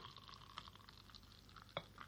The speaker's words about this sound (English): This is why you listen to this podcast. Just to listen to the pouring of beer.